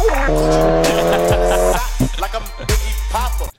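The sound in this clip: A Focus ST skids with its tires squealing in a high, wavering whine over a revving engine, with a few sharp bursts before the sound cuts off abruptly.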